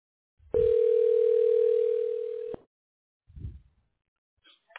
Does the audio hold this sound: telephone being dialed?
yes